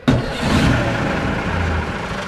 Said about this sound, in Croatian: Starinski dizelski motor koji pokreće Ghost Bus u obilasku Edinburga mogao bi alarmirati klimatske aktiviste.